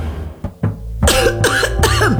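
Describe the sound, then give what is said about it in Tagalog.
Human coughing: two short, sharp coughs followed by a few louder, rougher voiced hacking coughs, heard alone without speech. “Ubo, Plemex Forte Capsule.”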